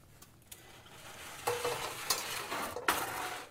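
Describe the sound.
Fried rice with meat being stir-fried in a pan, with a steady sizzle under repeated scraping and stirring strokes and a few sharp clacks of the utensil against the pan.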